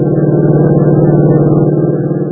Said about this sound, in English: Joe forces the accelerator down to the floorboard, and the sedan roars down the empty desert road.